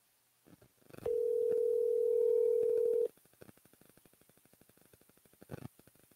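Telephone dial tone heard while calling a number again: a steady mid-pitched hum lasts about two seconds, followed by a rapid run of soft clicks, with a few short blips before and near the end.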